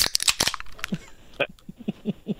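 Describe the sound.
A can of PBR beer cracked open: a quick cluster of sharp clicks and snaps at the start, followed by quieter, scattered sounds.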